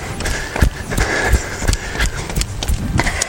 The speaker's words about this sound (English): A little bit of wind here. I hope that's not screwing things up too badly.